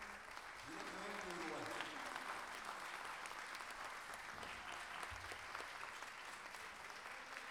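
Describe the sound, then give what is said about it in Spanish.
Faint audience applause at an international gala of improvised folk singers, a steady crackling wash of clapping with a voice briefly heard over it. “Cacho Artigas, por favor, y un aplauso para él”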